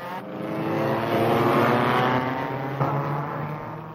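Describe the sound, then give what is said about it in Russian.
Racing car engines roar past the stands on a circuit, heading into a steep turn: a loud, sustained, throaty roar that swells slightly and then eases. “Рокот машин снова стал приближаться. Машины подрагивали вдали, как кузнечики. Потом выросли прямо на глазах, и вот уже промчались мимо трибун и вошли в крутой поворот.”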